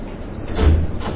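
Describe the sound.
A door being opened, heard as a dull low thump in the middle over a steady background hum.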